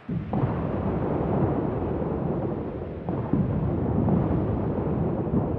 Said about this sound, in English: Fire the guns, lads!